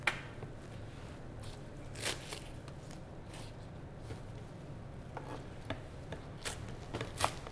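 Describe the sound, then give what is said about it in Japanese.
Knife chopping vegetables finely for a vegetable-based okonomiyaki, heard as many quiet, irregular cuts and soft knocks spread across the whole stretch, with no talk over them. “さっと洗って細かく切るだけ、はい、よいしょ根っこを揃えて一気に切ってよいしょ”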